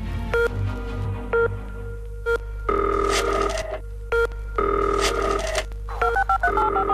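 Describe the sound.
Telephone keypad tones dial a number to call a studio: many short, bright beeps in quick uneven bursts over a steady low hum, and no one speaks.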